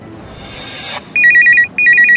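A phone ringtone for an incoming call: a loud hissing swell, then two bursts of rapid, high, warbling electronic tones separated by a short gap.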